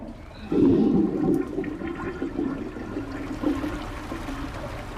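An upstairs toilet flushing, its water rushing down through a drain pipe: a loud surge begins about half a second in, then settles into a steady, slightly weaker roaring gush that carries on to the end.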